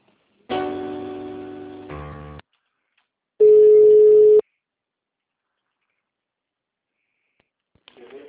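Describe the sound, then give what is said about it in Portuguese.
Telephone tones sound after a dropped call: a long buzzy tone that changes partway, then a pause and a shorter, steady, pure beep. Silence and faint noise follow. “Caiu a ligação, desculpa.”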